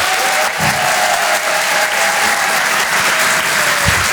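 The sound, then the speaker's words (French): A comedy club audience applauds a comedian coming on stage, with dense, steady clapping that stays loud and continuous throughout. “Faites un maximum de bruit s'il vous plaît pour Julien Sabas.”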